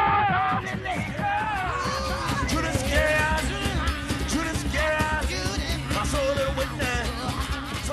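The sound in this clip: Ring shout singing with African roots, from the rural American Deep South of the 1930s: loud, continuous voices chant and holler with shouted whoops throughout.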